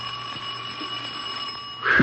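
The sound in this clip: A bell rings continuously, a steady, high, buzzing ring that holds for about two seconds at an even level. A louder burst of noise cuts in at the very end.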